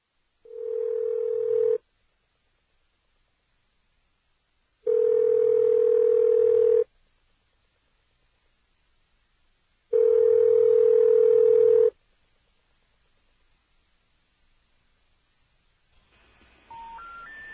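Telephone line tones: three long, steady, mid-pitched tones, each about two seconds and separated by silence, then a short stepped sequence of rising tones at the very end, with no talk.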